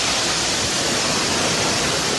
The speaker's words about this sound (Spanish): El agua se filtra en cascada a través del techo.